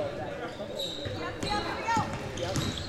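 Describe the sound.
A basketball is dribbled on a court during a game: a few hollow, thumping bounces under a commentator's steady play-by-play voice.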